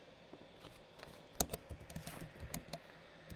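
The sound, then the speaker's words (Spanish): Typing on a computer keyboard while writing a post, soft irregular clicks and taps, faint and scattered, with a few sharper key strikes. “A ver, os lo escribo por aquí por Facebook si puedo.”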